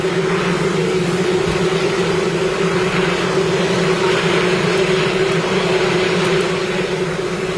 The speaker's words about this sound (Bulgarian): чува се и хеликоптер, но не се чува Тръмп